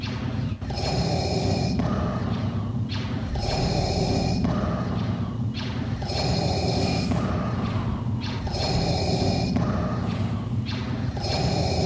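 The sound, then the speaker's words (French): A man pants heavily, out of breath and struggling to recover, with loud rhythmic gasps and breaths repeating steadily throughout, each one rough and breathy. “Ouais, c'était votre animateur qui avait du mal à reprendre son souffle.”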